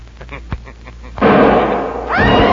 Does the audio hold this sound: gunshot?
yes